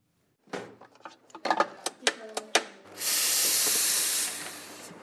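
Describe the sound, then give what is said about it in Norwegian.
A cappuccino is made in a café: a quick series of sharp clinks and clatters, then a loud, sustained steam hiss as milk is frothed, fading out at the end. “Duften av malte kaffebønner brer seg i lokalet. Siste hånd legges på verket før en kopp rykende varm cappuccino er klar.”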